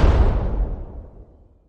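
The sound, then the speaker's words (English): Bomb explosion sound effect: a loud, deep boom strikes at once, then rumbles and fades steadily to silence in under two seconds, heard alone. “Here's my remote bomb. It's even scarier than the other bombs.”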